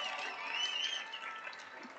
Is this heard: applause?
yes